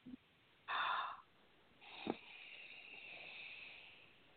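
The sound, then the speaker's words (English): A deep breath drawn in: one airy rush about half a second long, followed by a quieter, steady breathy hiss. “Take a nice deep breath.”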